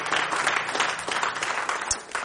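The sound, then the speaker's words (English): A church audience claps in praise during an evening service. Dense, rapid clapping runs steadily and fairly quietly from start to finish. “You can give him a hand clap of praise tonight.”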